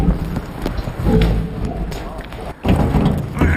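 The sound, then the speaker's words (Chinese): Heavy, thudding footsteps of a keeper walking toward walruses, coming as a run of irregular low thumps and scuffs that pause briefly before resuming. “对于这熟悉的脚步声，海象早已经迫不及待了。”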